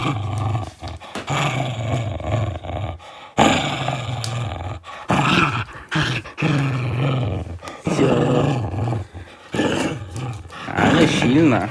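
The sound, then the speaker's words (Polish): A strong hunting dog growls while tugging hard. The growl is loud and rough and runs almost without a break, with short dips and surges through the whole stretch. “Ale silna psinka. Ale szarpie.”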